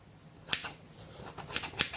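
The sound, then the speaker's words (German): Kitchen scissors snip through pasta in a few quick, crisp cuts, sharp clicking bursts spaced irregularly over a quiet, steady background. “Küchenschere, die ich auch nehme für Gemüse, für Nudeln. Zum Beispiel, wenn die Kinder Spaghetti haben, ne? Kinder, das schaffen die nicht. Die muss man dann schon mal schneiden. Und schneid das gleich mal formgerecht.”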